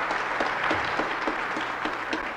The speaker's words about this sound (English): We need to clap more for them so they'll come again next time.